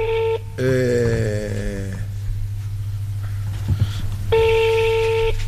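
A telephone is dialed directly and rings: a brief tone, then a longer warbling tone, a noisy pause, and another steady tone at the end.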